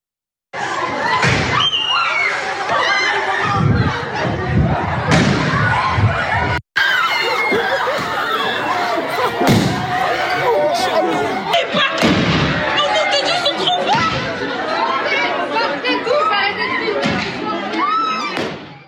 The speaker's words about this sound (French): les images à Chelles, ce tir de mortier dans un lycée de Chelles. Regardez.